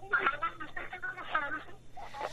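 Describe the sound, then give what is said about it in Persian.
A radio plays behind a phone caller on a call-in line, heard as a thin, narrow voice in uneven bursts of syllables at moderate loudness. “برادر لطفا کسایی که تماس میگیرن صدای رادیوی تان لطفا پایین بیارین خاموش کنین زمان که صحبت میکنین ما نمیتونیم درست صدای تان رو بشنویم”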